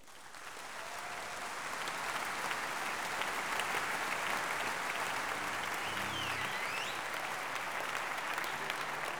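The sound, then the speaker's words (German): An audience applauds at a concert with a dense, even patter of many hands clapping. The applause swells over the first seconds and then holds steady and fairly soft until the end. “Vielen Dank für Ihren Applaus.”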